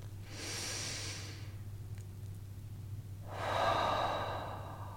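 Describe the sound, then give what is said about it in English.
A deep breath during a guided relaxation session: a long, airy intake followed after a pause by a fuller, louder exhale, soft and unhurried, with a steady low hum underneath. “I welcome you to find your seat and join me in taking a breath.”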